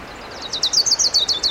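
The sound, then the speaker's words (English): An orange-crowned warbler sings a rapid, high-pitched trill of many quick chirping notes over a faint background hiss. “There's a warbler singing. It might be an orange crown.”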